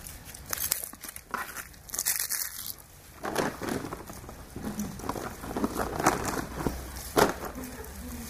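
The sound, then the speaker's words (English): A chocolate wrapper crinkles and crackles as it is unwrapped, in irregular bursts of crisp rustling that run on and off. “I'm going to have this chocolate and then we're going to get serious, okay?”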